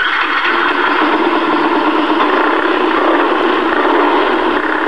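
A 180 cc racing motorbike's engine runs with a steady, buzzing drone as it is readied for a race. The sound stays loud and even throughout, with no talk.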